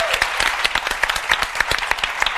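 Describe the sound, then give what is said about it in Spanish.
Applause from an audience at a live talk: dense, continuous clapping from many hands, sharp and fairly quiet, holding steady throughout without voices. “Un aplauso para Marina.”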